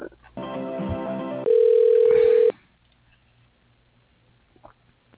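Telephone line tones during a call transfer to an operator: a buzzy, harmonic-rich tone is followed by a steady, loud pure tone lasting about a second, then the line drops to a faint hiss with small clicks.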